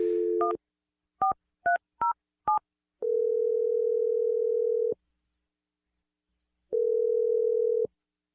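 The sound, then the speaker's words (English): Telephone dialing: a brief dial tone, then five short touch-tone beeps at an uneven pace, followed by two long steady tones separated by a gap of silence. “Okay, I'm going to dial the number right now.”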